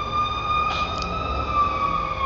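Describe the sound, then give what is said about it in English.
An emergency vehicle siren sounds as it passes, a loud, sustained tonal wail with strong harmonics that holds a nearly steady pitch throughout, over a low rumble of traffic. “wait for the sirens to pass”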